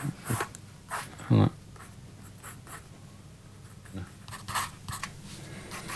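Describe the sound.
Drawing strokes on paper while a square, chubby face with glasses is sketched: faint, irregular scratchy strokes come in short bursts, with one brief louder burst among them.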